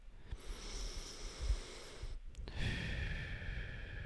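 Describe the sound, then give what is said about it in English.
Calm, slow breathing during a relaxation exercise: one long, soft, airy breath, a brief silent pause, then another drawn-out breath, quiet and even throughout. “Nice calm breaths.”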